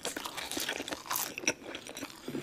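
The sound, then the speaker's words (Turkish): ASMR recording of someone eating something like a hamburger: close, crunchy bites and moist chewing that continue without a break at steady, moderate loudness, with faint scraping between them. “Şu anda bir hamburger gibi bir şey yiyor.”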